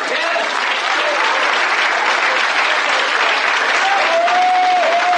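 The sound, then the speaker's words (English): A church audience clapping their hands, loud, continuous applause from many people that stays full and unbroken throughout. “Clap your hands, you people.”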